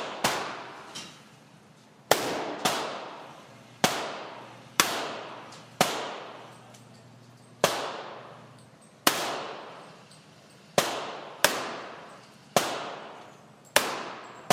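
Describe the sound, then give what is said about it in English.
Gunshots fired at paper shooting targets: many sharp, loud cracks, each with a quick decaying tail, spaced at uneven intervals of about a second, with no talking in between. “Try and shoot the guy without shooting the girl.”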